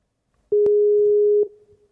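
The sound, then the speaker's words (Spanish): A telephone busy tone heard after hanging up and calling again: one steady, loud, mid-pitched beep lasting nearly a second, with faint clicks at its start and end, then near silence. “Espera, cuelgo y llamo un segundo.”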